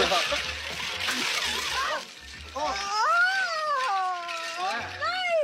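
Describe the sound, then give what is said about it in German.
Water splashes and sloshes as a champagne cooling bucket is ripped off a table, with a noisy spill at first, followed by a high, wavering, cry-like vocal sound. “auf ein Champagner trinkendes Paar zulaufen und denen den Eimer vom Tisch reißen, der ihr Getränk kühlt.”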